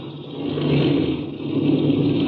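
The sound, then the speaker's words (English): An aircraft engine drones steadily as the plane taxis under trees, a rough mid-pitched roar that swells slightly and then holds at an even level, with no talk. “Then I'll cut the engine.”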